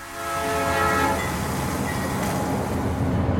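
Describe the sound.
Train rolling on railway tracks: a loud, steady rumble, with a horn sounding at the start and fading into the noise, no voices.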